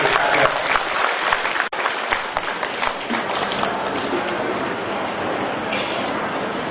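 Dense, sustained audience applause congratulating venerable Buddhist monks at a ceremony, a continuous wash of many hands clapping at an even level throughout.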